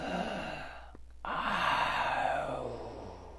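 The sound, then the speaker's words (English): Wheezy breathing echoes in a dark tunnel. Two long, raspy breaths, the second louder and more drawn out, are separated by a brief gap, with a low hum underneath. “As they followed the tunnel, they started to hear sounds. Like breathing, but wheezy breathing,”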